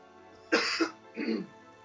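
A person coughing twice: two short, moderately loud bursts, the first sharper and the second a little softer, separated by a brief pause, with quiet before and after.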